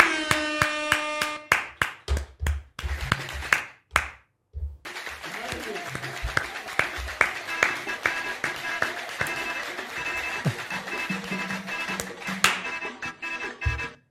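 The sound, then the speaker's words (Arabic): Hands clap in a round of applause for the girls: sharp, rhythmic claps that pause briefly, then carry on in a lively, uneven patter, with voices audible beneath. “ترى والله العظيم صفقة حق البنات صفقة.”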